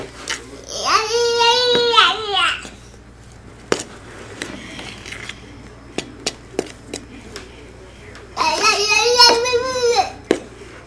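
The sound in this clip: A baby fusses and cries in two harmonic wailing bursts, one early and one near the end, with quiet scattered clicks and taps in the lull between.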